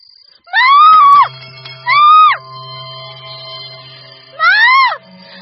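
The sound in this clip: A girl's scream rings out from outside in the courtyard: three high-pitched, wailing cries with arched pitch, each about half a second long and separated by pauses.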